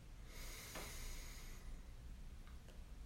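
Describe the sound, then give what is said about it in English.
A deep inhale during a guided breathing exercise, a single long, soft breathy hiss that rises and holds for over a second before fading, quiet against a faint background. “Twice more like that, breathing in and out. Last one like this, inhale.”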